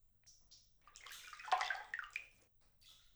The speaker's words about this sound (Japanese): 湯船、あったかくて気持ちいいです。お湯、かけますね。